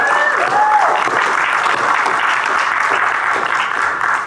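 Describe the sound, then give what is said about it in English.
A church audience applauds and cheers in praise, loud, dense clapping sustained throughout with shouted voices mixed in. “Let's start off by giving the Lord a shout of praise in the house today.”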